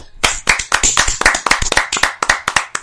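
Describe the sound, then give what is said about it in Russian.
Hands clapping in a quick, steady run of many sharp, loud claps that lasts a few seconds, with no voices over it. “Похлопаем.”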